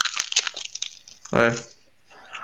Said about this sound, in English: So what he's saying is you don't need hundreds and hundreds of euros. You can just tear that up and